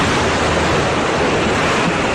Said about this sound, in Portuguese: Imagine que você está na praia. Sol forte, calor, vindo do mar.